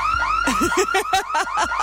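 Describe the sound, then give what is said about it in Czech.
A car alarm goes off with loud, rapid, warbling electronic chirps that repeat in quick succession and change pitch, steady and insistent throughout. “Vypněte to, prosím vás, někdo! Ten alarm. Vypni to, vypni to!”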